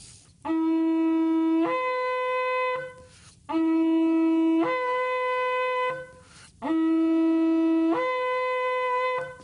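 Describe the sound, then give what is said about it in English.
Shofar blowing shavarim, the three medium wailing blasts of the Yom Teruah call. Three loud, steady horn tones of a few seconds each are separated by brief gaps, and each lifts to a higher pitch midway. No one speaks. “The next one is called shavarim. This is the second blast. This is three medium wailing sounds that sound something like this.”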